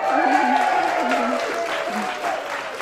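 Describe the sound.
Applause from a celebratory audience of mostly women at the Little Museum of Dublin, marking 100 years of women's vote: brisk, steady clapping from many hands with voices rising over it.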